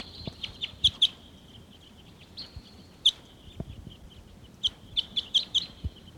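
A flock of birds calling with many short, high chirps in scattered bursts, some in quick pairs, over a low, steady background rumble.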